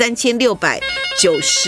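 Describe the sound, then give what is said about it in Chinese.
A telephone ringing with bright, steady electronic tones, mixed in with a person talking over and between the rings. “来听电话接哈”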